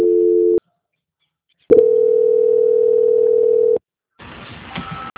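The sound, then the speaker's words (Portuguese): Telephone line tones during a call transfer: a short steady tone, a pause of silence, then a longer unbroken tone of about two seconds, followed by silence and a faint, rough noise at the end. “Que eu já vou transferir. Transferência.”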